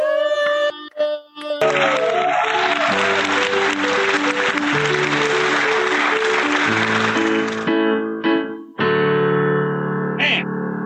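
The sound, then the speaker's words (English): Audience applause and cheering roar under a loud, distorted electric theme-song riff, with the crowd noise swelling in the middle and the riff continuing alone at the end. “Make some noise for the amazing Amber Nelson.”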